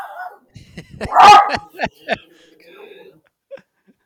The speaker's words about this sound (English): to Jeff's point, I'm sorry about my dog. But yeah, someone's barking.